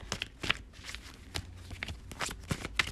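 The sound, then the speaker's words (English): A deck of tarot cards being shuffled, with many quick, soft riffling and slapping bursts in an irregular rhythm, faint and alone without voices. “And with that being said, let's shuffle these cards.”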